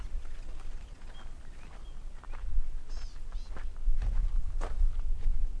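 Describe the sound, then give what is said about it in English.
Footsteps crunch over rocks on a hiking trail in the Chisos Mountains, with irregular gritty scrapes and clicks of stone underfoot over a low steady rush of wind. “Hearing the rocks under my feet, the sound of the stone, I mean, it's great.”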